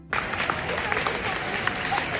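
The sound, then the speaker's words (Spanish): A crowd applauds the arriving royal couple at a traditional parade. The clapping starts abruptly and continues as a dense, steady roar for about two seconds. “así, con aplausos, han sido recibidos don Felipe y doña Leticia”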